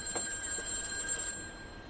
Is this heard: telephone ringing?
yes